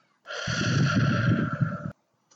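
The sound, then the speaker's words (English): A single slow, audible breath in a guided breathing exercise. It swells in softly and holds as a breathy rush with a tonal edge for about a second and a half, then stops abruptly into silence. “And breathe in. And let it out. And breathe it in.”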